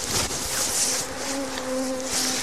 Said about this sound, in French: Moi, j'allais dans le champ. Alors, c'est ce qu'on appelle bourdonner en pleine nature.